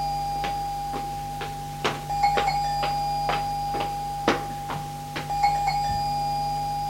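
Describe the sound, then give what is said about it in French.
A doorbell at a gate rings out as many bright electronic chimes in quick, irregular succession, sounding over a steady high hum. “À 10h, l'on sonne au portail. Elle va répondre à l'interphone.”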